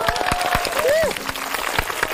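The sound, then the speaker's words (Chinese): Applause from an audience welcoming a university campus band: scattered, distinct claps spread across the moment, with a voice briefly sounding over them. “掌声来也。”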